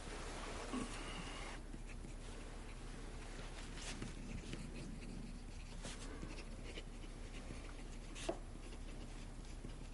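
Faint, continuous scratching of a fountain pen writing on paper, soft and even, with a few brief ticks standing out near the end.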